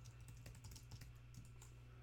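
Faint typing of a chat message on a computer keyboard: rapid, irregular key clicks tapping continuously with no talking.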